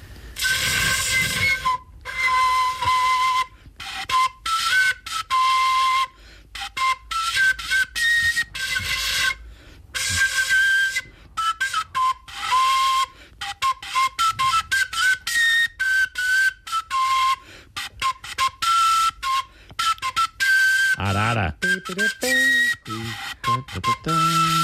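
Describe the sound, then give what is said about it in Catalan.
Whistling tones blown through a crumpled paper sheet rolled into a tube, sounding as many short, breathy toots and longer held notes that waver in pitch, with choppy gaps between bursts. “És un foli rebregat. Si hagués pogut estudiar una mica més, hagués sonat una miqueta més nítid.”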